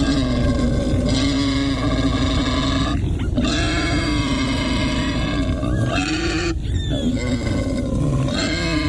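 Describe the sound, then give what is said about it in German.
A wild boar grunts, a continuous run of deep, rough, snorting grunts that stays loud throughout, broken by a few brief harsher bursts. “Also zusammenzucken, erstarren, das ist ein Wildschwein.”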